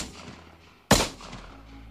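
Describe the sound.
A single sharp gunshot from a Taurus Ferox 765 rifle cracks out loudly and abruptly, then fades in a short decaying tail over a low background.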